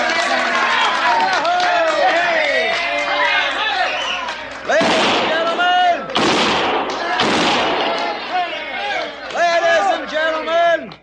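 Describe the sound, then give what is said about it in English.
Six-gun revolvers fired inside Skinner's saloon in Virginia City: a few sharp gunshots burst through loud, continuous crowd chatter and shouting. “kindly refrain from shooting six guns in the establishment, because the next man that does it's going to get thrown out on his saddle.”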